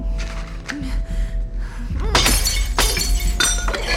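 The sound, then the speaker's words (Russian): Glass smashes as the pane of a fire-axe case on a sinking ship is struck with a battered suitcase, giving loud, harsh shattering crashes in a few bursts, followed by scattered clinks of breaking glass over a steady low rumble. “разбивает им стекло ящика, забирает топор и возвращается назад.”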